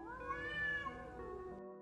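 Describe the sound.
A weak, half-dead white cat gives one long, drawn-out meow with a clear tonal, wavering cry, faint and heard alone.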